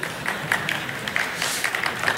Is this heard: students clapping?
yes